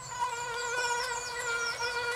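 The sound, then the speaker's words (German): Mosquitoes buzzing in the Erzgebirge forests, a continuous high-pitched whine with wavering, overlapping pitches that rise and fall slightly, steady in loudness, with no voices. “Auch in den Erzgebirgswäldern sind sie zu Hause. Mücken.”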